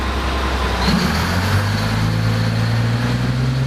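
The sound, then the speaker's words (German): Heavy diesel drone of a 1217-horsepower dump truck at an ore mine: a loud, steady, low rumble that holds throughout, without a break. “Ja, so klingt ein 1217 PS starker Muldenkipper am Erzberg.”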